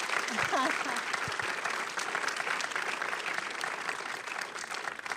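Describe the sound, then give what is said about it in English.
Audience applause for the film Portrait of a Lady on Fire: loud, continuous clapping from a large crowd, with a brief vocal cheer near the start. “if you might give one more major round of applause for Portrait of a Lady on Fire.”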